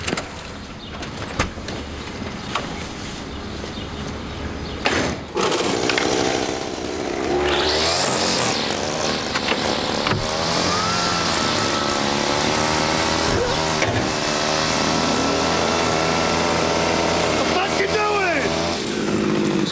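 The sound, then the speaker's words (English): A lawn trimmer runs while cutting a lawn, starting abruptly after a quieter opening and holding a loud, buzzing engine drone to the end, with voices talking over it. “What are you doing? I'm trimming a lawn.”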